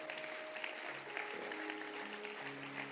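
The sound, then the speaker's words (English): Audience hands clapping in appreciation of a keyboard player, a faint, continuous patter of many hands with sustained tones underneath throughout. “Let's clap our hands for him.”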